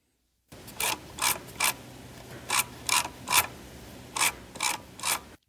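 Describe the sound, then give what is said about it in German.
A computer mouse scroll wheel is turned, giving crisp ratcheting clicks. The clicks come in three short bursts of three, with brief pauses between the groups, over a quiet background. “Ist ein Mausrad. Ein Mausrad, genau. Hat keiner geraten. Mausrad.”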